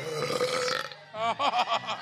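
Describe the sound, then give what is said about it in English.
A burp during a burping contest, long and croaking, starting as a steady voiced rasp and then breaking into a series of choppy, throaty pulses. “We don't get do-overs. This is, you don't get a mulligan in the burping contest.”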